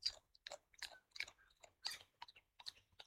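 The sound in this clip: A koala chewing a bundle of eucalyptus leaves: many soft, crisp crunches and bites in an irregular rhythm, faint, with no talk.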